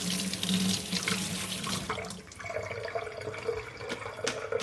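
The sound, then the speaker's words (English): Tap water runs steadily over scallions being rinsed in a sink, making a continuous hissing splash that stays fairly loud throughout with only a brief dip midway. “So I've got some scallions here and I'm just gonna give them a bit of a rinse.”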